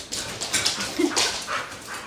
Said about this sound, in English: It's okay. They're dogs, they're going to come.